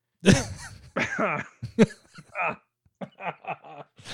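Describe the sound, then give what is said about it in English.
A person coughing: a few harsh, sharp bursts at irregular intervals, mixed with voiced throat sounds and soft chuckling, fairly quiet overall. “I coughed. Sorry.”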